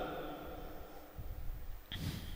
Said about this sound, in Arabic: هذه شربة، بسم الله